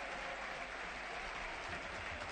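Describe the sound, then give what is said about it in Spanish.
A stadium crowd applauds at a suspended football match, producing a dense, even wash of clapping that holds steady and fairly loud from start to finish, with no voices standing out. “Es el aplauso ahora que escucha y efectivamente el partido está suspendido.”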